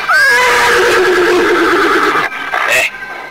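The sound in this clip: A horse gives a loud, long whinny that begins high and shaky and slides downward over nearly three seconds, ending in a brief final burst.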